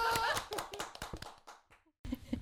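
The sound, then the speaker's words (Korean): A few quick hand claps ring out as people talk over them, the clapping sharp and fairly light in a short burst, followed by a brief pause and more speech. “오 박수.”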